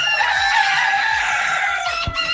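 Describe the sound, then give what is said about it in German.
Roosters crowing at a crowing contest, with loud, continuous, overlapping crows and no talk. “es gibt hier ganz viele Menschen, die zählen das Krähen der Hähne.”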